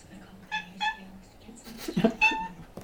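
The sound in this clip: A domestic cat meows a few short, mid-pitched times, with a person's voice briefly heard between the calls.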